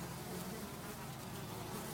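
A swarm of flies buzzes in a dense, continuous, even hum outside a door, faint and steady throughout with no voices.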